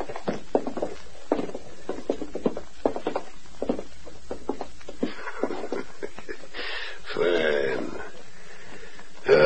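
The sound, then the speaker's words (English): Two men walk toward a safe, their footsteps a series of hard taps on the floor. The steps grow sparser, and a louder rumble follows near the end. “Get over beside your brother. Now both of you walk toward the safe.”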